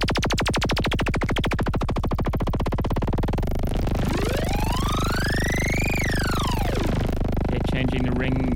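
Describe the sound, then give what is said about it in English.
A modular synthesizer tone runs through a high-pass filter and a modulation generator: a loud, continuous, buzzy pulsing drone whose upper tone falls away, then a bright sweep arcs up and back down before settling. “So I'm going to bring the cutoff frequency of the high pass up and the frequency of the modulation generator down.”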